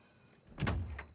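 A door being shut in a house: a soft thud with a brief rattle, followed by a fainter click a moment later.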